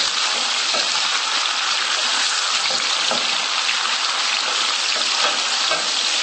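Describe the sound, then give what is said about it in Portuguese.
Garlic and bay leaves sauté in a pan with a steady, loud hiss of frying oil. Faint stirring scrapes appear now and then beneath the continuous sizzle. “E vamos colocar também o alho para refogar. Vamos pôr 2 folhas de louro. Vamos mexendo.”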